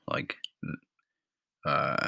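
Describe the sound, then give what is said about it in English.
Burping: rough, low, voiced belches. Short bursts come first, then after a long silent gap a longer drawn-out belch, fairly loud against quiet. “two burps there, that's poor.”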